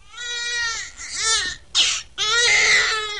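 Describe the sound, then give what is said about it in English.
A baby cries in several wailing bursts, the first one long and drawn out, followed by a short sharp cry and then another sustained wail. The cries are high-pitched and fairly loud, with brief pauses between them. “The cry of a baby in the vastness of the valley is about the smallest sound you can hear”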